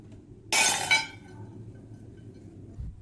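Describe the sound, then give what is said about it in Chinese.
Flawed kiln-fired porcelain pieces smashed at a family pottery in Chenlu old town, a sudden bright shatter of tinkling, clinking shards that quickly dies away into low background noise. “每次窑炉烧出来肯定有不满意的作品，这摔了20多件”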